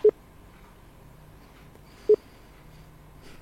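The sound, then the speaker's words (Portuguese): Two brief electronic phone tones as someone dials a call, each a short, mid-pitched beep, the pair separated by about two seconds of quiet hiss. “Vamos ligar.”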